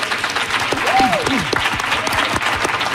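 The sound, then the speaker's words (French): Applause and cheering from an audience of about a hundred people in the Radio-Canada atrium in Montreal at a live public radio show, with dense steady clapping throughout and a brief rising-and-falling vocal whoop early on. “Les gens que vous entendez, c'est parce qu'aujourd'hui, on vous présente une émission spéciale d'apéro public du dimanche devant une centaine de personnes rassemblées dans l'atrium de Radio-Canada à Montréal.”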